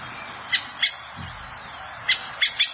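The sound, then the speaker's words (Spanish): Five short, sharp, unmelodious calls from a blackbird (mirla), simple repeated notes given as a pair, then after a pause a quicker group of three, each bright and clipped over quiet background. “Y estos son los sonidos que normalmente escucha si hay mirlas volando, claro. o en el suelo.”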